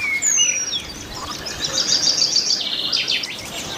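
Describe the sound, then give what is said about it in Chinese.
Penduline tit calls by a beaver pond rich in insects: many thin, high-pitched chirps and short trills repeat over a steady, faint background hiss, with no talk. “食物如此丰富，以至于潘雀也搬了过来，开始建造精巧而复杂的鸟巢。”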